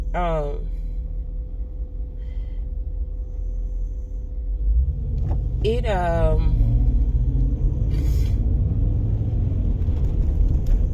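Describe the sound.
Low, steady car rumble fills the cabin while driving, a continuous engine-and-road drone that grows somewhat louder about halfway through and then holds level to the end.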